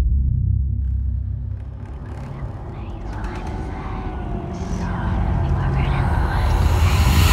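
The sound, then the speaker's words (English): Deep, steady rumbling from a ghost-themed movie trailer, a dense low drone that swells slightly toward the end, with muffled voices faintly underneath. “Hit me with that trailer audio.”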